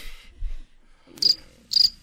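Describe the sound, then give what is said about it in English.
Cricket chirping sound effect: two short, high-pitched trilling chirp bursts about half a second apart, faint and heard alone. “Crickets, please.”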